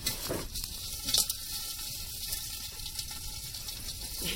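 Popcorn sizzles in a hot pot while chopsticks stir it: a soft, dense frying hiss runs throughout, with an occasional brief bright clink, and no voices.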